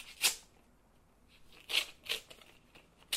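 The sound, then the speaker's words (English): Papery tearing and crinkling as an envelope is opened on a table, heard as a few brief, crisp rips separated by quiet pauses. “Look at what's on the table. Oh, an envelope. We'll open it.”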